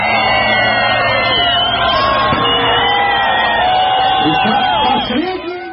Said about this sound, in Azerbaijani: Bir neçə saatdan sonra vaxt zolaqlarını aşaraq yeni il Moskvanın qırmızı meydanında bayram şənliklərinin iştirakçıları tərəfindən alqışlandı.